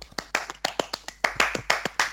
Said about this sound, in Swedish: Hoppas det var att det var applåder och inte jojning där.